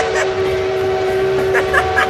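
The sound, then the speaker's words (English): A fair train rumbles along with a steady, droning tonal hum that holds one pitch throughout, loud and unbroken, with slight rattling texture above it. “I hear that train coming. It's coming around.”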